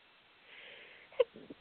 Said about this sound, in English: Sorry, that was a sneeze.